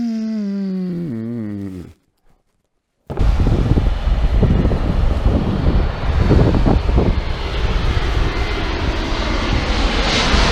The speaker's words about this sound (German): Wir landen jetzt wieder.